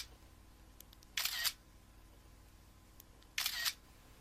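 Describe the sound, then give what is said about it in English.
Two crisp camera shutter clicks as a group selfie is taken, each a short bright snap about two seconds apart against a quiet background hiss. “Come on, let's all take a selfie together. Selfie on three.”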